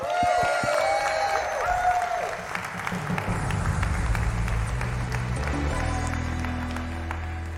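A church audience applauds to welcome the spiritual care pastor to the stage. The clapping is dense and steady throughout.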